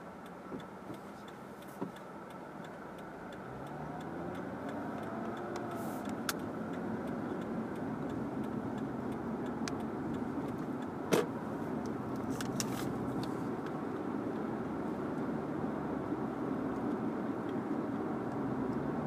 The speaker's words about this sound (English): Now let's take this marginally clean car and put it into traffic.